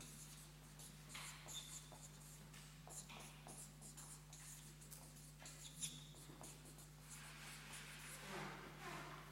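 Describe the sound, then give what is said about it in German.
A pen scratches across paper while a book title is written down, with quiet, continuous strokes and small pauses between words. “ich schreibe Ihnen noch einen Buchtitel hin von jemandem, der das systematisch gemacht hat, ein Buch geschrieben hat.”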